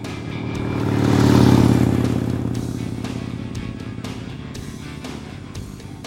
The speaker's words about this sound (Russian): Робинсон направился к знаку, не отпуская правую ручку газа. Он как раз успел включить пятую передачу.